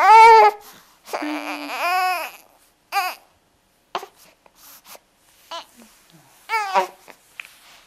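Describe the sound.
A distressed baby cries and babbles, giving a few drawn-out, wavering wails followed by shorter scattered babbling sounds and whimpers, separated by brief silences.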